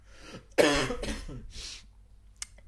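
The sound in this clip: Coughing after swallowing the wrong way: a few harsh, loud coughs in quick succession, followed by quieter throat sounds and two short final bursts.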